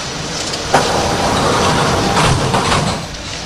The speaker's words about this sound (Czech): ukončete výstup a nástup, dveře se zavírají.